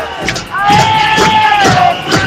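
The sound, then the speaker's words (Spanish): A protest crowd shouting loudly during an education march from Atocha station to Puerta del Sol in Madrid, a dense, roaring mass of voices that rises and falls in waves. “Esa es la algarada que han formado durante el itinerario, una protesta que les ha llevado desde la estación de Atocha hasta la Puerta del Sol, donde han leído un manifiesto.”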